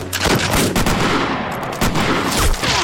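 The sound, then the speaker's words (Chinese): Rapid gunfire during a battle: a dense, sustained volley of sharp, loud shots with no clear gaps, a few heavier cracks standing out from the continuous barrage. “兄弟们，瞄准射击！”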